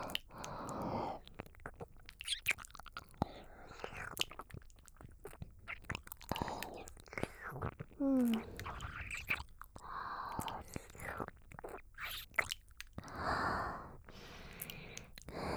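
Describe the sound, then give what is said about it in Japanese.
Wet licking and slurping mouth sounds on an ear in an ASMR roleplay, close and soft, with many irregular smacks and squishes alongside faint breathy whispering. “このお耳をレロレロって舐め回して、汗を拭き取ってあげるからね。”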